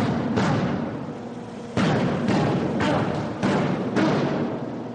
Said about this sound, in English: One kick to the groin.